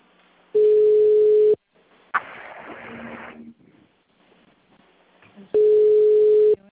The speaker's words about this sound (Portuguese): Não, tem alguém ligando para alguém. Quem está ligando aí?